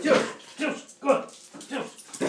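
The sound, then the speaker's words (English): Dogs playing together, with short whines, whimpers and yips in a few uneven bursts. “Dogs are playing.”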